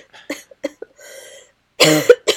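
A woman who is unwell coughs in a few short, muffled bursts, trying to hold them back, then lets out a louder, harsher fit of coughing near the end.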